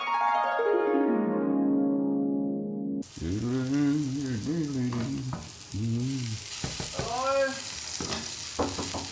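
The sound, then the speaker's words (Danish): Food fries and sizzles in a smoky kitchen. A constant, hissing crackle starts after about three seconds and continues steadily to the end, following an opening tone that slides downward in pitch. “Der ryger noget herude, ja, men det er gang i køkkenet. Jeg er ved at lave ruskum snusk.”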